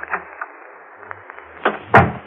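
A door closing and a key being pulled out of its lock, heard as a few faint clicks and taps followed by two louder knocks close together near the end.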